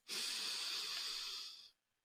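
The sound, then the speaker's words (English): A single long, deep breath drawn through the airways as a slow, breathy hiss, loud and steady for over a second before cutting off into silence. “Breathe, okay?”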